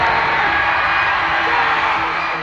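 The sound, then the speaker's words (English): Sports fans cheer and roar for their teams in a dense, continuous crowd din that holds steady from start to finish without a break. “You're listening to a sound very familiar to all of us. It's the sound of fans rallying behind their teams.”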